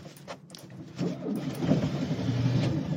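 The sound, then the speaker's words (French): A 1971 car is started with the key and choke: a few faint clicks come first, then the engine catches and settles into a steady, low rumbling idle that grows slightly louder. “Vous avez tourné la clé, appuyé sur le starter? Oui, j'ai appuyé, tourné la clé, j'ai démarré”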